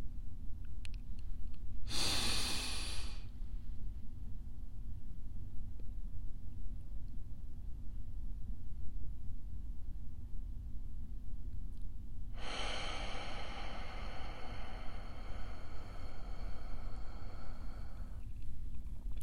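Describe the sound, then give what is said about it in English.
Slow breathing, in through the nose and out through the mouth: a short breath of about a second, then after a long pause a much longer, steady breath of several seconds. “And then you will blow right out through your mouth for a slow count of 7. You will breathe in your nose for a count of 5.”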